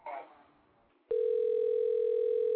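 A telephone line sounds as a call is placed to a switchboard: a short burst of noise, then a loud, steady, unbroken tone that holds unchanged to the end.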